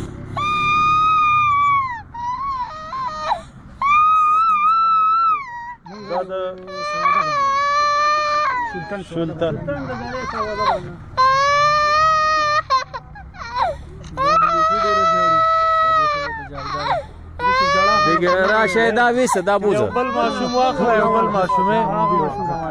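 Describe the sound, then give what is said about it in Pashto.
Children crying after being frightened by gunfire, with high, sustained wails and sobs that rise and break off again and again, loud and repeated throughout. “ماشومان دزو ویرولي اوس هم په جړا دي.”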